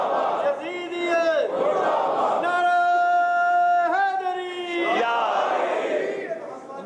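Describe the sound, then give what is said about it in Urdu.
A crowd of many voices shouts a religious slogan in unison during a sermon about Hussain. Several loud, drawn-out chanted shouts follow one another, each swelling and fading. “ہمیشہ یار اتنا آہستہ نعرہ بھیجے گا, میں ڈر گیا.”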